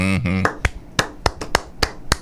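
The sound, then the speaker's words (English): Sharp hand claps for a round of applause follow a brief burst of talk. Several single claps land at uneven intervals and stay crisp and percussive, without building into a continuous roll. “since we mentioned Tom Jurich, let me give a round of applause.”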